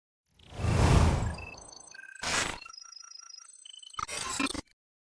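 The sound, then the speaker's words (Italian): A segment transition sound effect: a loud swelling whoosh, then a second, shorter swish, with bright electronic beeps and chime tones running beneath. A final busy cluster of tones cuts off abruptly. “Non so se hai già la transizione quasi pronta, però ti lascio prepararla. Ogni tanto la mettiamo dentro, transizione.”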